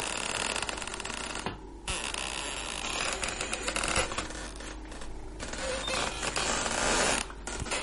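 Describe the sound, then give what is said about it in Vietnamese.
A kitchen door's hinge creaks as it opens during wind and rain, a drawn-out grinding creak over a dense, steady wash of noise. “Trong mưa gió ẩm ĩ như thế mà cái tiếng bản lề kêu lên ken két xoáy vào tai nó.”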